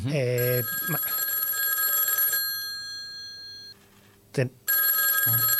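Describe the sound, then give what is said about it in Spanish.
A telephone rings with an incoming call, a loud, steady electronic tone with bright sustained harmonics, broken by a short pause before the ringing resumes. “Tenemos una llamada.”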